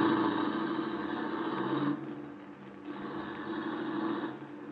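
A car engine drones steadily as the car drives off, dipping briefly in the middle and then swelling again.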